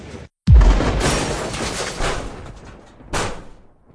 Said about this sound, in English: Oh man, is that a missile?